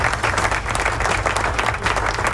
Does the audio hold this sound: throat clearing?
no

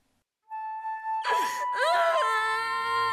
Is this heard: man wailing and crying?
yes

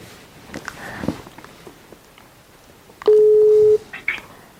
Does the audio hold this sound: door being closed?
no

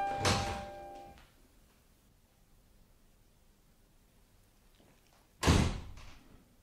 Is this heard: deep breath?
no

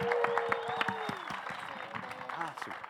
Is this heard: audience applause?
yes

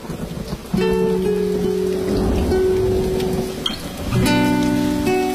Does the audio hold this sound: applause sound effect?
no

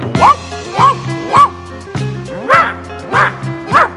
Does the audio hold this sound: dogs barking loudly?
yes

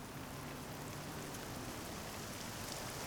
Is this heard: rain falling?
yes

